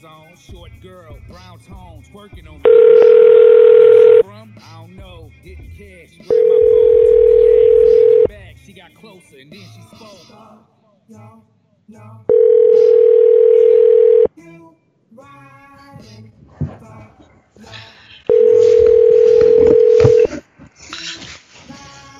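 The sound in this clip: Steady telephone tones on a call to a customer service line: four long, even, mid-pitched tones, each lasting a couple of seconds, separated by gaps with talk and other phone sounds between them.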